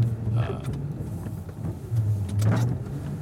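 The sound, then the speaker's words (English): Cars pass on a road while the vehicle carrying the recorder turns around, giving a steady low engine rumble that swells louder near the end. “and now there's cars coming.”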